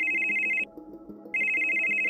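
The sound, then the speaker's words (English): A mobile phone rings in rural El Salvador: two bursts of a steady, high electronic tone separated by a short pause, over low background noise. “Vidalina Morales' mobile phone rang”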